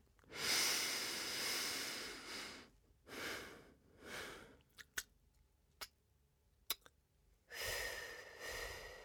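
Deep breaths taken during a guided breathing exercise: long, airy inhalations and exhalations in a few drawn-out waves, separated by quiet pauses with a few soft clicks and mouth noises.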